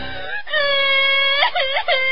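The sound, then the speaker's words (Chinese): Loud, drawn-out wailing and crying from a single voice, a sustained tone with wavering, sobbing pitch that dips and rises several times, heard alone without other sounds. “嘿，怎么又哭上了？别哭，朕恕你无罪，好好说。”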